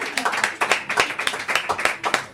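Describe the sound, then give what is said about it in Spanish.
An audience applauds with brisk, overlapping hand claps in a quick, uneven patter that stays fairly loud from start to end. “Un aplauso. Qué maravilla.”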